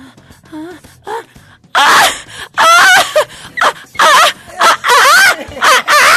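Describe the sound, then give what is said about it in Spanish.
A voice imitates chickens being slaughtered, like a panicked henhouse: a few soft squeaks give way to many loud, shrill, warbling squawks and cackles in rapid, uneven bursts. “o sea, que parece que están matando. Gallinero. Es como un gallinero.”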